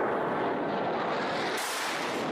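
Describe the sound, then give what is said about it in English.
Airstrike explosions from a Saudi-led coalition bombing of Sana'a, Yemen, heard as a dense, continuous roaring rumble that stays loud and steady throughout, with no separate blasts standing out. “Those are the sounds of the Saudi coalition and their airstrikes.”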